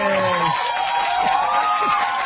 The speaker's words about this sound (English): I hit the wrong button. I was supposed to do my applause.